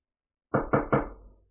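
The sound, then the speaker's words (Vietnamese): Three sharp knocks on the door of a stone chamber in a palace. They are loud, evenly spaced and come alone, each with a short fading tail. “Một hồi tiếng gõ cửa truyền đến”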